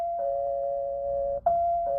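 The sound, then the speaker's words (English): A doorbell sounds as a sustained, steady buzzing tone. It cuts out briefly past the midpoint, then resumes and holds to the end. “Suppose someone rings your doorbell.”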